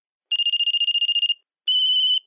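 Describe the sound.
A telephone rings twice with a high, rapidly pulsing electronic trill. The first ring lasts about a second, and after a short silence a second, shorter ring follows.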